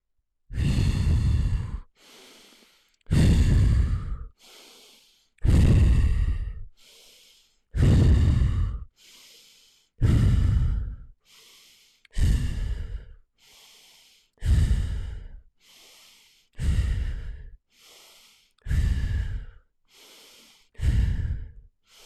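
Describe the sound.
Deep, forceful breaths during a breath practice meant to reduce inflammation, repeating steadily as loud rushing breaths alternate with softer, shorter ones in a slow, regular rhythm.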